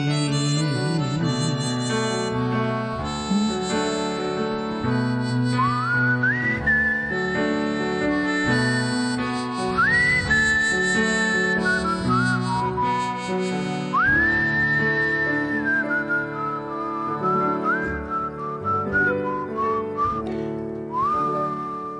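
Melodic whistling carries the tune of a song about an evergreen tree, with clear sustained notes that slide up into each phrase over a continuous instrumental backing.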